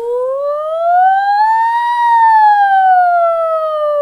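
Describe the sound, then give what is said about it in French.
Fire engine siren, one loud, clean wail that climbs slowly in pitch, holds at the top, then falls away again, sounding alone without voices. “C'est la sirène des pompiers, là.”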